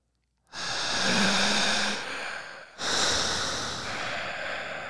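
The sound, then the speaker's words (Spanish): Deep breathing in and out during a breathing exercise: two long, loud, airy breaths, one after another with a short gap between, with no talking. “Empezamos a respirar. otra vez.”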